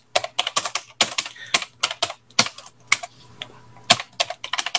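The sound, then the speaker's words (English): Typing on a computer keyboard while names are entered into a report: many quick, uneven keystrokes clatter in bursts with brief pauses, and no one speaks. “And I'm writing down the names of witnesses as they appear in Zoom.”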